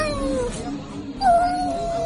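A kitten meows while a girl plays with it in a backyard, giving a couple of drawn-out, tonal meows. The second meow is louder and slightly falling, and a soft background murmur runs beneath.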